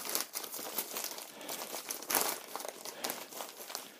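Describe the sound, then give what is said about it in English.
Crinkling and rustling of tightly wrapped packaging being opened, a quiet, irregular run of many crisp crackles and scrunches with occasional sharper bursts. “So I don't damage anything. This is really well wrapped up.”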